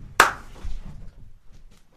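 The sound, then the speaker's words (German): One sharp, loud hand clap is made at home to shoo cats away, followed by a few faint low thumps and quiet rustling. “Ja, das war natürlich nur ein Klatschen in die Hand. Ich würde meine Katzen nicht schlagen.”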